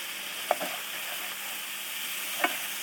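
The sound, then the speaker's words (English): Onions sizzle in a frying pan during deglazing, giving a continuous soft hiss. Two light clinks of stirring break through the sizzle, one early and one near the end. “A little bit more deglazing. And this should help the recent bit of onion.”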